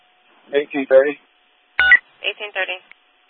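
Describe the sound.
Telephone keypad tones dial a callback number for a police dispatch caller: two short runs of evenly spaced beeps, split by a brief crackling burst.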